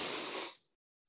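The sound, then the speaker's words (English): A powerful breath drawn in through the nose during a breathing exercise, a single loud rushing hiss lasting under a second before cutting off to silence. “breathe in, keep this posture, but take a powerful breath through the nose.”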